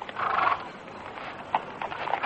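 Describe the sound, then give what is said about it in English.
A doctor's horse arrives with clip-clopping hooves, a few soft, irregular knocks over a noisy, muffled background. “come take the doctor's horse”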